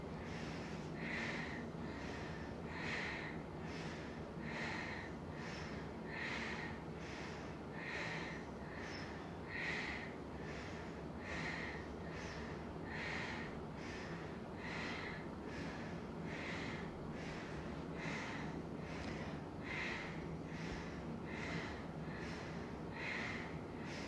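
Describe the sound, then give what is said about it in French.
Forceful exhales through the nostrils during a guided breathing exercise: many short, sharp nasal puffs in a steady rhythm, roughly one every couple of seconds, faint and without talk. “Attention à bien déboucher les narines hein, quand vous expirez.”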